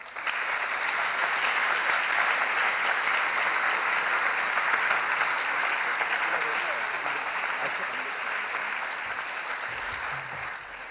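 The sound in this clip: An audience applauds to welcome two speakers onto the stage, a continuous, full patter of clapping that stays steady and eases slightly toward the end.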